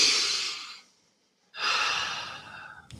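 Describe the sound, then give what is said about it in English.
A big, deep breath: two long, airy breath sounds separated by a short silence, loud and clear with no talk. “I like to start off with a big, deep breath. It helps to get you centered.”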